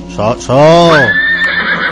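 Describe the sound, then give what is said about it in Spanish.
A loud, prolonged horse neigh, a quavering whinny that wavers in pitch and then trails off into a thinner, higher tone over about two seconds. “Agarra el caballo, por favor, que se te desboca. ¿Qué le haces hoy? ¿Qué le haces al caballo, por Dios, que viene así?”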